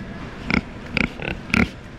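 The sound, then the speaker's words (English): Chunky black and pink pigs snuffle in their pens at a Kentucky livestock show, giving four short, snorting grunts spaced about half a second apart over a faint background. “Elvis, Priscilla, and Hulk snuffle around their pens. The chunky black and pink pigs belong to 15-year-old Jordan Gosney from Pendleton County.”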